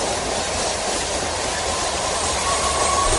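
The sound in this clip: A train arriving at a red signal and braking to a stop on a bridge: a steady, loud rolling rumble and rattle of wheels on rails, with a faint thin squeal near the end.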